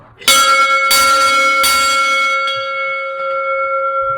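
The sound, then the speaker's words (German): A large original bell hung in a bell frame rings out with a few loud strikes. Each strike leaves a bright, sustained metallic tone that lingers and slowly fades between hits. “Das ist einer von den größten, was wir drin haben, mit der Originalglocke. Ich leite die jetzt einmal um.”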